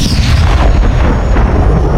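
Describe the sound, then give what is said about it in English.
Explosion of a missile striking a spaceship's topside fuselage and blowing the craft apart: a loud, continuous roaring rumble of dense low noise that holds steady throughout, with no distinct onset or pauses. “It exploded in a boom of flame and metal fragments.”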